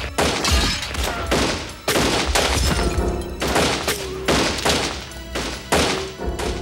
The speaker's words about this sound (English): Twenty rounds ricocheted through the small store in a matter of seconds.